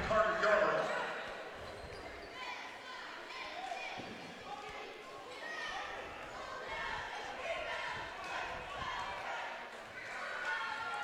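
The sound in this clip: A basketball bouncing before a free throw at a high school game, a few dull bounces heard under steady crowd murmur.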